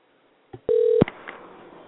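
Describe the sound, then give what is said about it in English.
Telephone dialing tones: a brief blip, then one sustained electronic tone lasting about a third of a second, followed by a faint steady hiss of line noise. “And we're dialing.”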